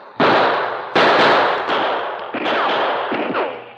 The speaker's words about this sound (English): The men showed themselves for a brief second when they fired.